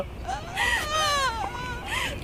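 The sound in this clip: A young child crying in wavering, high-pitched wails and sobs that swell and dip in pitch across several cries, with no clear talk over them.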